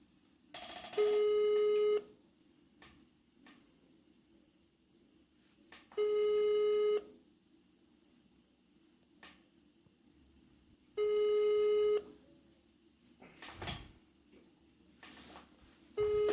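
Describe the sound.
A telephone busy signal heard while calling someone: steady, loud tone bursts about a second long, repeating at long even gaps over a low background hum, with no talk.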